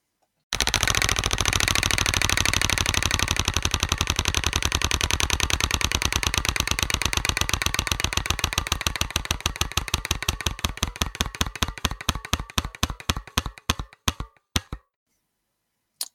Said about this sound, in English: let's um, spin the wheel again